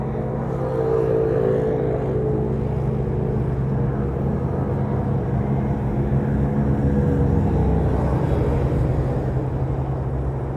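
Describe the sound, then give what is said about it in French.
Wheel motors of a moving vehicle give a steady, loud, low rumble with a faint droning hum on top, continuous and unchanging for the whole stretch, with no voices. “Alors les émergences sonores, c'est les moteurs de roue qui, elles, émergent franchement.”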